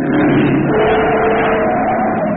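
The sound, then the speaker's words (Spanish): Car engine roaring as the vehicle speeds out of control along a winding road with broken brakes: a loud, continuous, steady drone holds throughout without letting up. “El auto está sin control. A velocidad vertiginosa serpentea por la carretera.”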